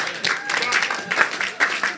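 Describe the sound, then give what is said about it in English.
A church audience claps during worship, with a run of uneven clapping bursts mixed under raised voices. “Clap for the Lord Jesus.”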